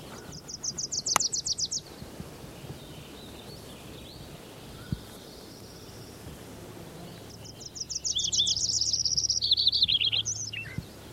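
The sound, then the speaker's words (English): Wilson's Warbler singing: a quick burst of high, rapid chirps at the start, then a longer, louder chattering series of high notes near the end, over a steady background hiss. “I think there was a Wilson's Warbler in there.”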